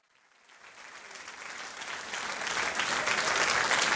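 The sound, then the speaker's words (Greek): Audience applause swells from almost nothing into a loud, dense wash of clapping hands over a few seconds, still building at the end. “Με επιδοκιμάζει το κοινό.”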